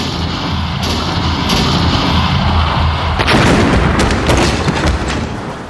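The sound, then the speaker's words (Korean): Cannons fire at enemy ships in a naval battle. A loud, dense barrage of booms and rumbling blasts runs without pause, with sharper bursts breaking through the roar. “적선을 향해서 총통을 발포하라!”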